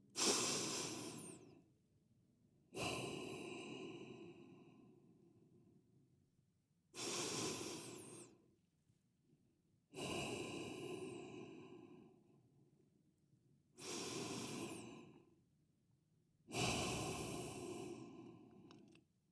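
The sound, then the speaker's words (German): Deep, slow breathing in and out three times: six soft, airy breath sounds, each inhale and exhale a long hiss that swells and fades, spaced by short pauses, quiet and alone with no talk. “schließ die Augen und atme dreimal tief ein und aus.”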